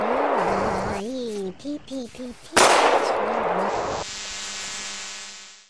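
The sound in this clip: A sharp gunshot blast in a video game cuts in between bursts of character speech. A noisy tail lingers after it, and a steady high electronic hum follows.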